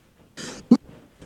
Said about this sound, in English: Sorry about all the coughing, by the way.